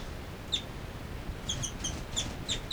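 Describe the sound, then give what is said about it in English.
Two birds sing in faint, high, short chirps, often in quick pairs. A few come early, then many follow in a rapid, irregular series over steady background noise. “Stop. Recording again. Both birds.”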